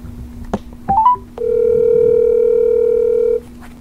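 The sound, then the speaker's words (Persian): A telephone dial tone sounds while a call is being placed: a few short electronic beeps and blips are followed by a steady, even tone that holds for about two seconds and then cuts off abruptly, with a faint low hum underneath. “میریم که باهاشون تماس بگیریم.”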